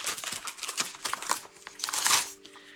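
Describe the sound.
Paper crinkles and rustles as a letter written to government leaders in September 2019 is handled, with a quick series of crisp, dry rustles and soft crackles that peak near the end before fading.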